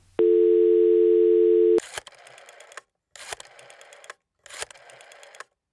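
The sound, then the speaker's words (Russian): A telephone receiver lifted gives a steady, pure dial tone, which cuts off into three separate bursts of rapid mechanical clicking as an extension number is dialed, with short silent gaps between them. “Поднимаю трубу и набираю добавочный худого Косыма”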